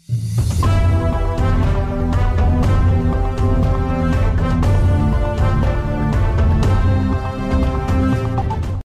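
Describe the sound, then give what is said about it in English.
A radio station's new jingle based on a famous symphony: loud, continuous orchestral music with a full low end and a clear melodic line, playing steadily throughout. “Our station has therefore chosen a new jingle, which is nevertheless still based around Dvořák's famous symphony.”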